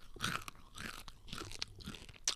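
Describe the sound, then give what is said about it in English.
Crunchy chewing of frosted mini wheats cereal, with many crisp crackling crunches in an irregular rhythm, soft and close, with no talking. “Do we do a little ASMR? ASMR. Eat those frosted mini wheats.”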